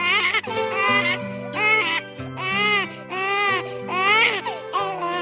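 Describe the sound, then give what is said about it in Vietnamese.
A newborn baby cries in repeated loud, high, wavering wails with short breaths between them. The cries continue steadily through the whole clip with no talking. “Con khóc.”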